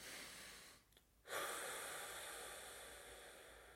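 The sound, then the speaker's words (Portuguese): A deep breath, faint and airy: a short pause, then a long, breathy rush of air that swells and slowly trails off. “Vou respirar fundo.”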